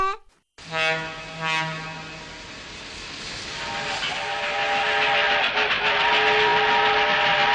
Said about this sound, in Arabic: يلا نركب هذا القطار السريع